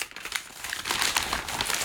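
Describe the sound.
Newspaper pages being turned, a continuous soft crinkling and rustle of paper that swells slightly in the middle and stays fairly faint for about two seconds.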